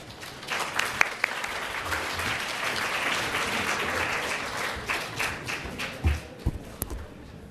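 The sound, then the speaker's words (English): Applause at the LSE SU China Development Forum welcoming a professor to give the closing speech, moderate steady clapping punctuated by a few sharp taps and thuds. “Let's put our hands together to welcome Professor Zhou.”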